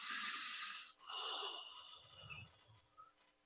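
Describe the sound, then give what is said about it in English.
Breathing during a guided emotional-clearing exercise: two strong, airy breaths back to back, followed by quieter, scattered breathy noise that trails off. “Take a breath.”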